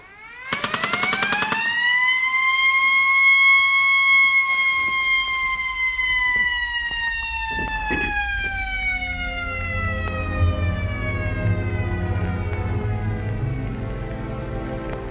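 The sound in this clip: A siren wails after a prison escape, a loud, long tone that climbs and then slowly sinks in pitch, opening with a quick burst of sharp cracks and later joined by a low rumble underneath.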